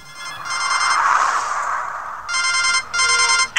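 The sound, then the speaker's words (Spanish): A home door intercom rings for an incoming call with bright, trilling electronic rings in short bursts. A hissy, noisy stretch separates the first pair of rings from a later run of several more. “Bueno, vamos a la segunda llamada, ¿eh? Se la hacen por un telefonillo de casa.”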